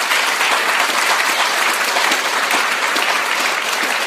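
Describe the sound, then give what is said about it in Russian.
Audience applause at a talk, loud and dense clapping that stays steady and unbroken from start to finish. “Поэтому давайте еще разок похлопаем сегодняшнему дню.”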